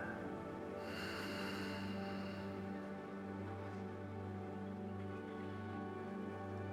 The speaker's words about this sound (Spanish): Respira profundo. Inhala. Y exhala.